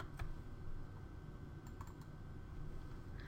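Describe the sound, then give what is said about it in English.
Soft typing on a computer keyboard as a formula is entered into an Excel spreadsheet, a few faint, scattered key clicks over a steady low hiss. “In the formula bar, we're now going to type equals and we're going to do returns”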